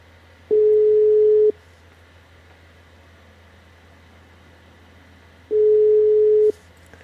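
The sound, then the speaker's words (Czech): A telephone ringback tone plays while a call is being placed. Two steady, mid-pitched one-second tones sound about four seconds apart over a faint constant low hum. “Tak, volám. Už to tady točí, tak uvidíme, jestli mi to veme.”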